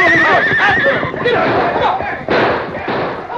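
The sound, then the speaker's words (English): A horse whinnies loudly with a wavering pitch while horses jostle and crash together in a Western chase scene. Heavy thuds and hoofbeats run underneath, and a sharp burst of noise comes near the end. “A hidden signal from the Lone Ranger sent Silver crashing against Tompkins' horse, forcing the animal back against the others”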